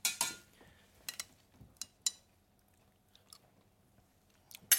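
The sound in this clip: Chewing and biting from people tasting a spicy sauce or dish made for fish: a few irregular, crisp mouth sounds and bites separated by quiet pauses, with no talking.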